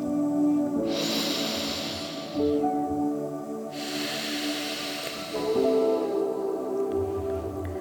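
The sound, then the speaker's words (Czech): Slow breathing through one nostril while the other is pressed shut with a finger: two long, airy breaths, each a soft, steady hissing rush of air. “natáhneme vzduch přes druhou volnou nosní dírku. A pak vydechneme a prst sundáme. Nádech a výdech.”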